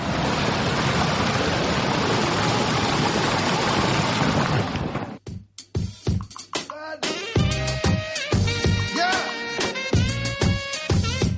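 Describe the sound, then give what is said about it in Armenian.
Rushing water of an irrigation stream in Lovers' Park, Yerevan, as a steady, dense flow for about five seconds, then cutting off abruptly to tonal music with sharp beats. “Երևանի սիրահարների այգին, որ վերաբացվել է Պողոսյան ընտանիքի միջոցներով, իր առաջին ամառն է վայելում, ոռոգման համակարգը գործում է, այգում նորից առուն է երգում։”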